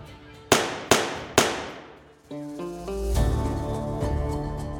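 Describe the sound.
Three sharp gunshot bangs crack in quick succession during a scuffle, each followed by a short decaying tail, and then a sustained tonal swell rises and holds.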